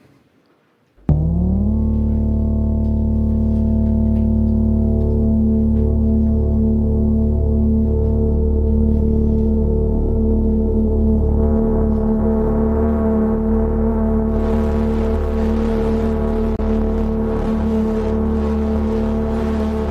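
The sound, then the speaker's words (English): A droning chord comes from the Katla, a chaotic five-voice synthesizer. It starts abruptly, one voice gliding upward early on, then holds as a steady, dense stack of sustained tones that turns brighter and noisier toward the end. “lately we've been working on this new device called Katla. And Katla is running NixOS. And it sounds something like this.”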